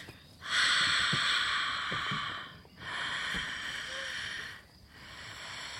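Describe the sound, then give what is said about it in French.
Breathy open-mouthed exhales in a vocal breathing exercise, as if fogging a window or mirror: three long, soft hissing breaths follow one another, each separated by a short gap, with no speech. “Et en expirant, tu vas imaginer que tu fais de la buée, par exemple, sur une vitre ou sur un miroir. Donc ça ferait plus ça.”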